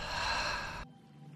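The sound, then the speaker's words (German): A deep breath during a stress-relief meditation, let out through the mouth in one long, breathy rush that ends abruptly and leaves near silence. “Nimm nun zum Abschluss noch einen tiefen Atemzug über die Nase ein und über den Mund aus.”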